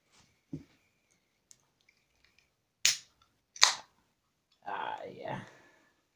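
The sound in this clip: A can of Innocent Gun beer cracked open: two sharp, bright snaps of the tab, then a short rushing hiss, set against near silence with a couple of faint clicks earlier.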